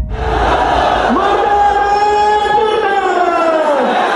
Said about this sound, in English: This is the sound of an angry mob in Pakistan.